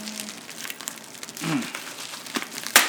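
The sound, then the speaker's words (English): A taped-shut package padded with bubble wrap is unwrapped: irregular crinkling and rustling plastic runs throughout. A sharp, loud crack near the end stands out above it. “This is really taped shut. But a lot of bubble wrap.”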